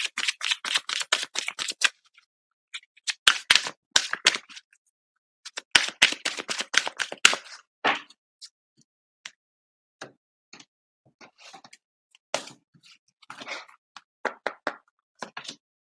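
Tarot cards shuffled and drawn from a deck, bursts of crisp, rapid flicks and taps that come in clusters separated by short silences.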